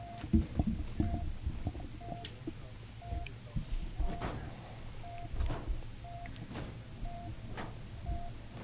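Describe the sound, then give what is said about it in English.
A low-health heartbeat warning in a video game pulses as short mid-pitched beeps, about once a second, over a bed of low thumps and clatter. “Still got heartbeats going on. What is going on? One of the people's health is low.”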